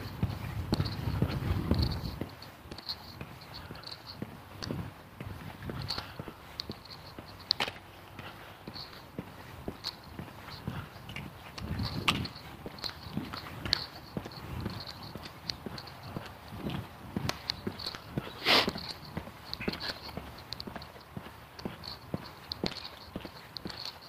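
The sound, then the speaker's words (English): Walking footsteps in a long, steady stream, many crisp, clopping steps repeating at an even pace with brief louder accents. “Okay, just focus on the walking. It's the meditation part of my day. Just focus on the walking.”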